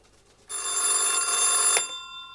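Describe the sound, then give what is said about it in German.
A telephone bell rings once, bright and metallic, lasting just over a second before cutting to a short fading tail, heard alone without voices. “Einen Tag später wurde er wieder angerufen.”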